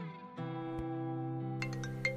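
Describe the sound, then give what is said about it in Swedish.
A mobile phone ringing with a steady, sustained melodic tone held at a fairly soft level. “Telefonen ringer och bryter tystnaden i Elsas lägenhet.”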